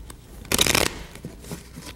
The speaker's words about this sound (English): Ordinary deck of cards. nothing unusual about them.